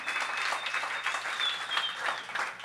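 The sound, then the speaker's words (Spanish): Audience applause at a tribute concert for a singer-songwriter, dense steady clapping sustained at a moderate level throughout, with no voices over it. “Un aplauso, por favor, con ganas.”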